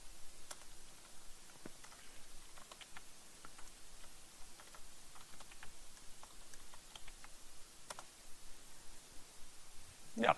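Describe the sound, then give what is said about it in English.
Typing on a computer keyboard gives faint, scattered clicks and taps in an irregular rhythm over low, steady background noise. “And again. Type it correctly.”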